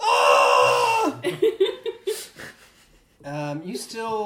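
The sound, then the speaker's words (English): A single voice imitates a group yelling in a burst of loud, voiced shouting, then falls into a few choppy vocal sounds before a second long yell at the end. “And when you come through, they all yell...”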